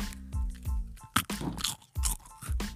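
Crunching of oblea wafer candy, a Mexican treat, as it is bitten and chewed: many crisp, rhythmic crunches and crackles, fairly loud and close, with no talk.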